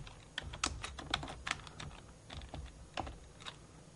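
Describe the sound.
Fingers type on a computer keyboard, a faint, irregular patter of many quick keystrokes with brief pauses between short runs, and no speech.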